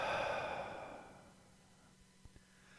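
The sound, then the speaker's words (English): A slow exhale during a breathing exercise: a soft, breathy rush of air that is strongest at the start and fades over about a second. Near silence follows, with a couple of faint clicks. “Inhale. Hold that. And exhale.”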